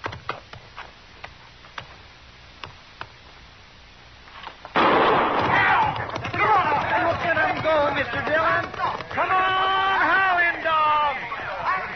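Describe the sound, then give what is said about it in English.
A single gunshot fires to start a horse race: a sharp burst after faint ticking, then loud, continuous crowd noise with voices that persists to the end. “Now I'll fire one shot.”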